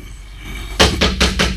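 Someone bangs on the door of an old house: four loud, heavy thuds in an even, quick rhythm, heard alone with no talking.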